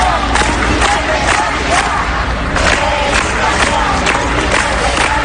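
Protesters from education unions and a public-education movement rally outside Extremadura's regional education department against spending cuts, a loud, dense crowd roar of shouting and chanting that holds steady from start to finish.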